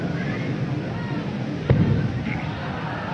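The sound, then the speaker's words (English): A single cannon boom from a naval vessel, the opening round of a 21-gun salute fired as the ship crosses a harbour: one sharp, low, loud thud midway through, over steady background noise. “The first gun booms out from Tamar at the start of the 21-gun salute that will take place as she crosses the harbour.”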